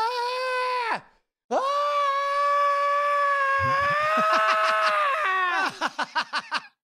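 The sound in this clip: A human voice imitates screams. One long, high, strained scream drops off sharply, and after a short pause a second sustained scream follows. It ends in a run of rapid, pulsing wails.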